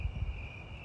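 Crickets chirping outdoors near an awning, a faint, steady high trill that holds throughout over a soft low rumble at the start.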